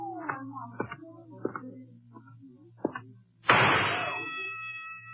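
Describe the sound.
A single sharp gunshot rings out at a carnival shooting gallery in a radio drama. Voices talk first, then the loud crack bursts in and leaves a long ringing decay to the end.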